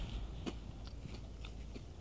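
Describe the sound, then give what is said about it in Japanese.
Someone bites into a crunchy green onion miso rice cracker, producing a few faint, crisp crunches spaced irregularly over quiet background, with no talking. “これはうまいわネギ味噌だ本当にネギ味噌せんべい”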